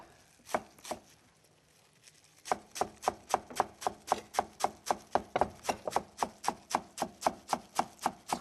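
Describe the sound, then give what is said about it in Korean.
A knife finely chopping Korean garlic chives (buchu) on a cutting board: a couple of cuts and a short pause, then a fast, even run of many crisp, regular chops. “부추는 이런 조선 부추 같은 거 많이 쓰고요. 예. 호부추 쓰는 경우도 있긴 합니다. 겨울철에는. 네. 그래서 이거를 절반 가르고 그래서 자잘하게 썰어 주시면 되겠고요.”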